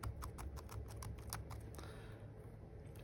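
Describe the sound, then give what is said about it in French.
Keystrokes typing a search for Prime Video, a quick, faint run of taps over the first two seconds before it goes quiet. “Donc, je vais donc taper l'objet de ma recherche, Prime Video.”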